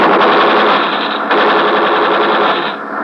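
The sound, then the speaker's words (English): Gunfire from warning shots fired in front of a man during a ship search: a loud, dense, continuous rattle of rapid shots that runs the whole time, easing slightly near the end. “Now I show this man we are strong. But any more! We fire in front of him.”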